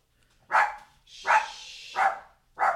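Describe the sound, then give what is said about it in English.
Dogs barking indoors in confusion: four sharp, mid-pitched barks spaced roughly evenly apart, with a thin higher whine drawn out between the second and third. “My dogs are barking. They're so confused.”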